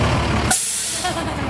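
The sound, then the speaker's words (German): A bright red fire engine comes around a corner, its heavy engine rumbling steadily until a sharp hiss of air brakes cuts in, then a low, even drone carries on. “Dann biegt das knallrote Feuerwehrauto um die Ecke. Es ist frisch poliert und glänzt in der Sonne.”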